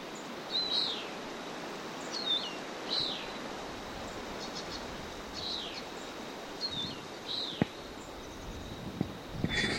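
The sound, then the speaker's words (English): A bird calls with a series of short, high chirps spaced unevenly over a faint, steady background hiss, with a few soft clicks near the end. “Stop. A bird.”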